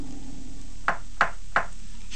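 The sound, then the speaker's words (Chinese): Three crisp knocks on a door, the entrance to a burrow walled with corn leaves in a cornfield, evenly spaced, light and sharp against an otherwise quiet background. “她鼓了起勇气，敲了敲门。”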